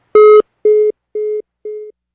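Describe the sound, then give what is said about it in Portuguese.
A telephone tone after a dropped phone call: five beeps at one steady pitch, each fainter than the last, the final one clipped short. “Ixi, caiu de novo a ligação com a professora Cida, mas que bom que a gente conseguiu terminar a entrevista, finalizar o assunto.”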